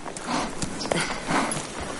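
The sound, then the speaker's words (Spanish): Hooves clip-clopping as two horses arrive in a western film scene, an irregular series of moderately loud hoofbeats. “La mujer llega con los dos caballos de los hombres a los que ha matado y Kit se dirige a ella.”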